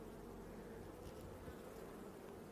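Honeybees buzz steadily in an open hive while frames are checked. The sound is a dense, continuous droning hum, low and even throughout, with no talk.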